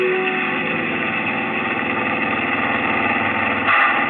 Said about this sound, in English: Almost lost it on that turn. The accelerator's down to the floor. Faster.